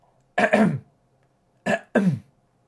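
A person clearing their throat: one longer rasping burst, then after a pause two shorter rasps in quick succession, loud and alone with no talk.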